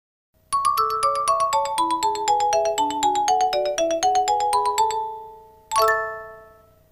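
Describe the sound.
A telephone rings for an incoming call with a melodic ringtone: a rapid run of many bright, chiming notes that steps up and down in pitch. After a short pause, a single ringing note sounds and fades.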